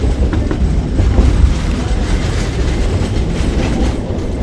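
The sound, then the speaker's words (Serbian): Train running downhill along a railway line through tunnels, a loud continuous rumble of wheels on rails with a steady clickety-clack rhythm throughout. “Putujemo prugom spuštajući se nadole sa tog brda na kome smo bili i kroz koje je prokopano toliko mnogo tunela.”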